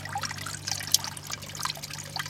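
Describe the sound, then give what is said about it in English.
Water cascades from bucket to bucket in an archaeologist's soil flotation tank, fed from a pool about a metre square. It makes a soft, steady trickle and splash over a constant low hum. “You've got a huge pool at the top, probably about, I don't know, a metre by a metre, and then it cascades down from bucket to bucket, like a waterfall.”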